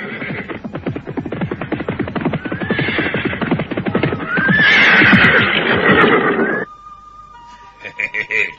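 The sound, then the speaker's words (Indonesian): Horses ridden by riders pound along in a fast, dense hoofbeat rhythm, and a loud whinny rises over the hooves midway. The galloping then cuts off abruptly, leaving only quieter sounds. “Oh, hei, suara apa itu? Oh, orang-orang berkuda.”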